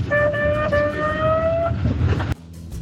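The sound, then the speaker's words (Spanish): An ambulance siren sounds as a steady, high-pitched tone with bright harmonics over a rumbling traffic background. It holds for about a second and a half, fades away, and the sound then cuts off abruptly. “Eso era la ambulancia.”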